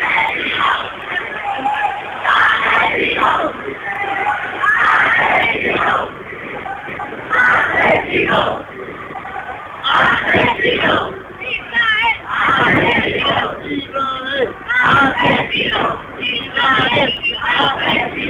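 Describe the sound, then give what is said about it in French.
Protest crowd in Granada, Spain, demonstrating against the Gaza massacres: many loud voices shouting in rhythmic surges, with continuous crowd noise throughout. “en pleine manifestation contre les massacres de Gaza. Voilà, je voulais faire écouter un peu l'ambiance.”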